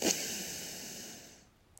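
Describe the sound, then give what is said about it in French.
A person breathes in slowly during a guided relaxation exercise: a single soft, airy hiss that starts with a slight burst and fades away over about a second and a half, leaving near silence. “Vous pouvez inspirer,”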